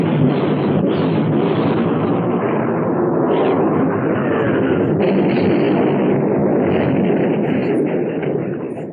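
Heavy naval guns firing in a 1960 war film about sinking the Bismarck: a loud, continuous roaring rumble of blasts with no clearly separate shots, fading slightly at the end.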